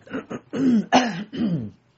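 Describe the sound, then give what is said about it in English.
Throat clearing from one person, a few rough, raspy bursts of uneven length in quick succession, fairly loud and alone, with no talk. “sorry, I got a frog in my throat”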